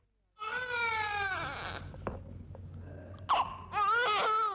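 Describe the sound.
A child cries in loud, wavering wails, one long sobbing wail, a quieter gap with faint knocks, then another high, rising burst of crying.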